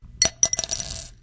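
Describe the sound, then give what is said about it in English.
A single quarter coin drops into a jar, landing with a bright metallic clink followed by a few quick rattling bounces that ring and fade away, alone with no talk. “That's the sound of a single quarter dropping into a jar.”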